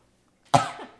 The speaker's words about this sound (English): It's contagious, the coughs, to clear your throat.